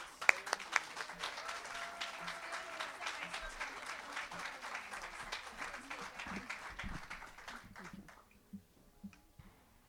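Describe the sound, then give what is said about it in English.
Audience applause welcoming a band onto the stage: many hands clapping at first, then gradually thinning and fading to a few scattered claps near the end. “How about a warm welcome now for Southwind?”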